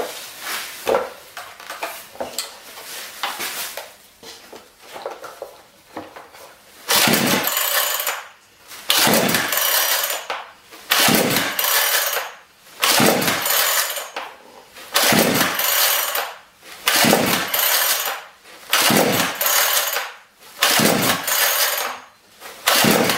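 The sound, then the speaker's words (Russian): Repeated attempts to pull-start a chainsaw engine, choke pulled out, that won't catch: a stretch of quieter rattling, then a long series of loud, evenly spaced rasping bursts from the pull cord, each separated by a brief pause. “пока я завожу нашу пилу, в течение 7 минут уже”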